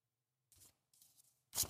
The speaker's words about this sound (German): Sie macht einen Umschlag auf, wie bei den Oscars.